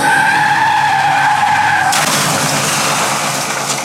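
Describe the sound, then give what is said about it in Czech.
Tire squeal from a Porsche car skidding in a crash in Aspen: a loud, steady screech with two sustained pitched tones for about two seconds, then an abrupt switch to a dense, rough, noisy roar that stays loud to the end, with no voices. “Zpěvák a herec John Denver 21. srpna 94 bourá se svým Porsche v Aspenu.”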